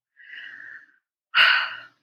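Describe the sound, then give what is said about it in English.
A deep breath is drawn in softly, then let out through the mouth in a louder, breathy exhale, alone against silence. “another deep breath in, and you can release it through the mouth, let it out.”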